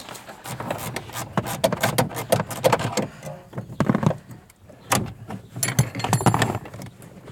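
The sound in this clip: A wrench loosening a nut on a car suspension link makes irregular metallic clicks, clanks and scrapes that come in busy bursts throughout, with no talk.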